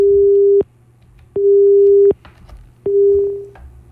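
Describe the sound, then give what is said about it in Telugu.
Telephone busy tone after a caller's line drops during a call-in radio programme: three steady, loud, mid-pitched tone bursts of equal length, each separated by a short silence, with no voices. “Line cut అయిపోయినట్టుంది.”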